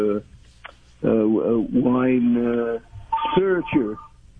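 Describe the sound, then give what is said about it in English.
A telephone ringing, with a few bursts of warbling, tonal electronic sound separated by short pauses, fairly loud and standing alone with no one speaking. “God, this phone. This phone never stops ringing.”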